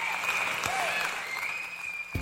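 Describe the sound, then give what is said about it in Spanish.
Crowd applause, a dense and steady patter of clapping that holds at an even level for the whole stretch, with a thin, high, whistle-like tone running through it. “Los gritos y aplausos para vosotras y vosotros.”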